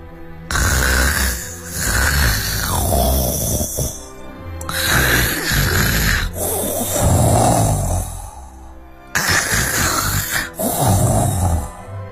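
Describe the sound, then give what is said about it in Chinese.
Loud snoring from a sleeper: a few long, rasping, roaring breaths follow one another with brief gaps, heavy and sustained, with no voices. “那是因为瘦子将军晚上睡觉的时候总是打呼噜，而且呼噜的声音好大好大，”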